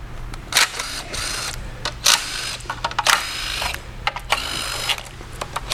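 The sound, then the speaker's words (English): Ratchet wrench clicking while removing the bolts from a transmission pan, a few short bursts of sharp metallic clicks separated by quieter gaps, with a low steady hum underneath. “So we're going to go ahead and we'll remove the valve or the pan.”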